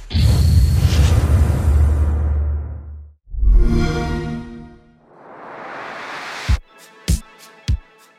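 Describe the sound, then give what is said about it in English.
The Xbox One X console startup sound begins with a deep rumbling whoosh, then swells into a bright tonal chord and an airy rising rush, and closes with three sharp percussive hits. “That was the Xbox One X startup sound.”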